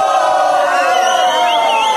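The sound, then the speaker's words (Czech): An audience shouting a booing cry together in chorus, practising crowd reactions. It is a loud, sustained group shout of mixed voices that holds steady for about two seconds. “Tak například, když se vám něco nebude líbit, všichni zvoláte sborem fuj, prosím, nacvičme si.”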